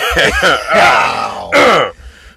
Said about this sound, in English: Clear my throat.